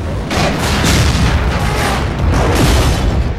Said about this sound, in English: The plane explodes.